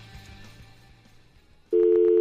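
A telephone line tone on a dead analog phone line cuts in abruptly after a low hum and holds as a steady, loud, even tone.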